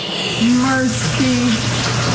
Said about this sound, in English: The roof was no match for the powerful storm. The water was just pouring down from all inside the light fixtures here,